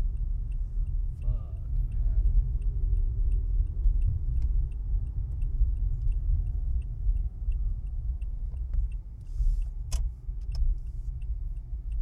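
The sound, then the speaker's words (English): Car turn signal indicators tick steadily inside a moving car, their faint, regular clicks running over a low engine and road rumble. “You can hear like five turn signals going on back and forth.”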